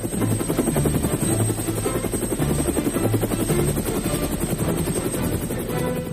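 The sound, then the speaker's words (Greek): A flying helicopter gives a loud, continuous rhythmic thudding of rotor blades, with a steady high-pitched whine held above it throughout. “Ελικόπτερα GAP4. Γιατί η ιστορία έχει ήχο.”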